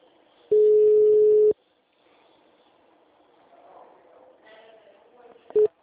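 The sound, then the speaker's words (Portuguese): Telephone ringback tone on an outgoing call: one long, steady mid-pitched tone lasting about a second, then a quiet stretch with faint low sounds, ending in a brief return of the tone. “Eu tô ligando pra você.”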